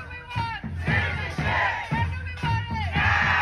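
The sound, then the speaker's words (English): Immigration advocates chant loudly outside a federal appeals court in New Orleans. Many voices shout a short phrase in unison, repeating it in a steady, driving rhythm of strong bursts. “With locked arms, immigration advocates chanted loudly outside a federal appeals court in New Orleans, where the Biden administration urged justices to overturn a Texas ruling blocking new DACA applications.”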